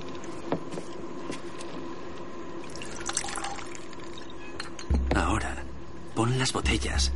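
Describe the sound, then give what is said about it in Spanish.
Liquid poured from a flask into a bottle, a thin trickle with a few drips over a dense, busy background, with louder low rumbling toward the end. “rompe el cuello y vierte el contenido de un frasco dentro.”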